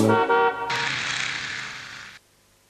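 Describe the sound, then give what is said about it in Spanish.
A car horn honks in a couple of short, loud toots, followed by a longer, harsh sustained blast that cuts off abruptly. “¿Qué es? Mi amigo que llegó. ¿Qué es? El auto se escuchó.”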